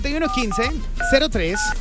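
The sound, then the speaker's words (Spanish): Telephone keypad tones as a call is dialed live on a radio call-in show. A few short, steady dual-pitch beeps sound under a talking voice. “Ya estamos marcando, ya estamos marcando.”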